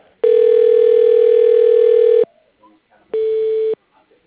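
Telephone line tones as a call is transferred to voicemail: a loud, steady electronic tone of about two seconds, a brief pause, then a shorter tone at the same pitch.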